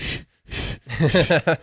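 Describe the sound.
An adult voice imitates a child's calming breathing technique: two breathy, airy exhales separated by short silences, then a quick run of short voiced huffing puffs.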